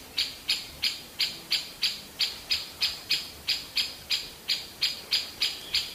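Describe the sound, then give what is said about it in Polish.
A great spotted woodpecker gives its alarm call near a nest tree with chicks: many sharp, high-pitched call notes repeated at a strikingly even rhythm, fairly faint, over a quiet background. “Posłuchajmy chwilę dzięcioła dużego, tak? Tak jest, dużego. To jest głos niepokoju dzięcioła dużego.”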